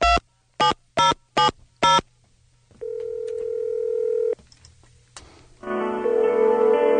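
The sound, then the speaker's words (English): A telephone is dialed and rings: five short, sharp keypad tones, a steady ringback tone, then a louder, buzzy ringing tone after a pause. “So we figured we'd give it a call. Okay. Just dial the number here.”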